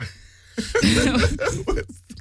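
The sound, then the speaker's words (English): A woman coughs, giving a few sharp, loud bursts in quick succession after a short quiet moment, with no speech around them. “She just coughed. It's okay. we all do it.”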